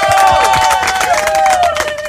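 Applause from an audience at a yeshiva event as a staff member is introduced, a dense wash of clapping and crowd noise with sustained tonal sounds running through it across the whole stretch.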